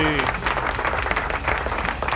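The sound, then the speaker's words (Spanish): Applause in the studio of a rock program, a steady dense patter of many hands that holds at an even level throughout, with a faint voice underneath at the start. “Aplausos, ¿dónde están los aplausos? Ahí están los aplausos.”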